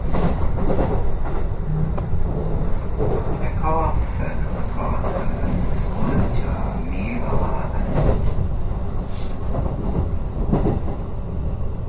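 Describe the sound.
A train running over rails that shake and rattle, heard as a loud, continuous rumble with dense clatter and scattered knocks throughout, steady in level from start to end.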